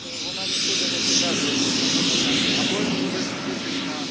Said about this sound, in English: The copters are painted with blue and yellow bug eyes and look like giant insects taking to the air.